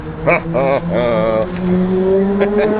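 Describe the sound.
Ferrari sports car engine revving in a racing video game: a few quick rising-and-falling revs, then a steadier drone that slowly climbs in pitch.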